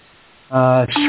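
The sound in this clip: A phone reminder alert tone sounds halfway through: a loud, steady, buzzy electronic tone that abruptly shifts to a second, different tone near the end.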